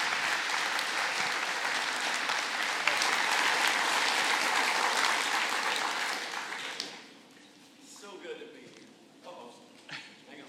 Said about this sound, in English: I want you to give a warm welcome to David Youth to Anastasia Baptist Church.